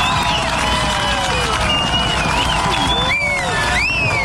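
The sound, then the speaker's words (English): Crowd noise from hundreds of people at a FIFA World Cup watch party in a lakeside park in Nelson: a dense, steady roar of many voices and shouts that holds at a constant level throughout. “That's the sound as hundreds gathered yesterday afternoon at Lakeside Park in Nelson for the FIFA watch party.”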